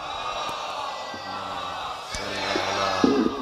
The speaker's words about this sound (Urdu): برحبیب خدا ختم الانبیاء باواز بلند نعرہ صلوات